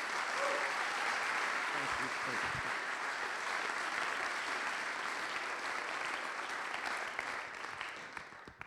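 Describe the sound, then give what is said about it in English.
Audience applause greeting a reverend as he is welcomed on stage, a continuous, fairly quiet spread of many hands clapping that stays even throughout before thinning slightly at the close. “So would you please put your hands together and welcome the Reverend Paul Cowley.”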